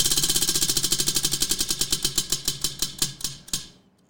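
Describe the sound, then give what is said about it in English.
A prize wheel spins with rapid, loud ticking that gradually slows, the clicks spreading further apart until the wheel stops after several seconds. “Yes, Darkest Nights, here's your wheel spin from last week.”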